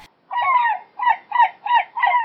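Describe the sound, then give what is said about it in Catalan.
Giant albatrosses give harsh, nasal honking calls, five in a row. The first is the longest, and the shorter calls follow in a steady rhythm with no other sound. “què és allò que s'acosta? Són albatros gegants!”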